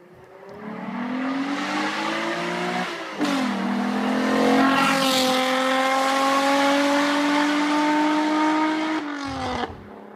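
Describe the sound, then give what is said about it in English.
A VR6 engine revs hard, its pitch climbing, then dipping briefly before a long, loud, steady high rev that drops away near the end. “the VR6 sounds like this.”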